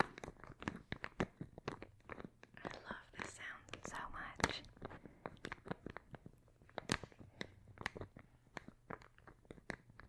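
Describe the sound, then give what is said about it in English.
Soft crinkling, tapping and crisp crunching from an ASMR video of a woman gently opening a bottle, with many quick, close clicks and faint whispering throughout. “She's opening up a bottle. It's kind of soft.”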